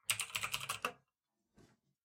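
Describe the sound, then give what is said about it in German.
Typing on a computer keyboard while writing a message: a rapid burst of clicking keystrokes for just under a second, then silence and one short final tap. “ich muss mal ganz kurz noch eine Nachricht schreiben, dann tippe ich auch nicht mehr.”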